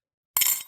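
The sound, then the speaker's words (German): A handmade pottery mug gives a single bright clink, a sharp ceramic ring that dies away within a fraction of a second, alone against silence. “Das ist der Sound der Tasse, die du uns getöpfert hast.”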